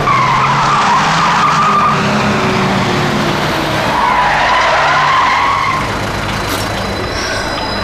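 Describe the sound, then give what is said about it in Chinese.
A car brakes hard to a stop during a police pursuit, its tires skidding with a loud, continuous screech over a rough roar that lasts several seconds. The squeal wavers in pitch and eases slightly at the end. “我已经停车了。”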